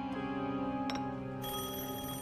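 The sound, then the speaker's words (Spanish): A telephone rings with an incoming call for an FBI agent, a sustained tonal ring that holds steady and alone, without voices. “Luego, un mes y medio después, el agente Wack recibe una llamada.”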